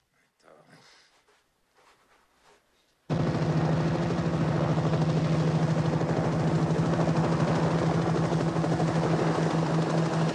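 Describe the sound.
A helicopter flies over a bend in a snowy road: after about three seconds of quieter, scattered sounds, a loud, steady rotor thump sets in and continues without a break to the end.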